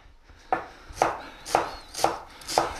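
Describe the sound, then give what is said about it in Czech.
A knife chops an onion into fairly coarse pieces on a board, cooking a base for pork neck rolls. Five sharp, evenly spaced strikes fall about half a second apart, each with a bright crack. “Nakrájím si cibulku, takovou trošku polohrubou,”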